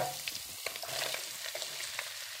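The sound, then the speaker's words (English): Chopped onion frying in oil with ginger paste for a chickpea curry, a faint continuous sizzle dotted with small crackles and pops. “And then we are going to add our chopped onion.”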